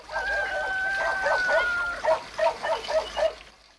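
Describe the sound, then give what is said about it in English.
A dog barks in a farmyard. A quick run of several sharp barks follows a couple of seconds of steady background noise that carries a faint whining tone. “He dons his sunglasses and wanders into the farmyard, breaking into a run to avoid a dog.”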